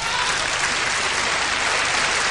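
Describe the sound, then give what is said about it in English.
Loud, sustained applause from a concert audience acknowledging the composers and performers, a thick continuous clatter of many hands at a constant level. “We'll be here all night. Everybody's getting a round of applause.”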